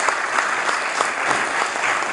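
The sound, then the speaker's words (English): Applause in a legislative chamber, a brief burst of steady, dense clapping from many people at an even level, with no speech over it. “I do think we should all give them a big round of applause and a big thanks for the work that they have done.”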